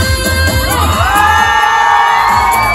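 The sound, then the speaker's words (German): A concert crowd in Gelsenkirchen screams on cue, a loud sustained roar of shrieks and cheers from many voices that holds steady to the end. “diesen lauten Schrei von eben, der war laut, aber der kann noch viel lauter sein. Gelsenkirchen, 1, 2, 3,”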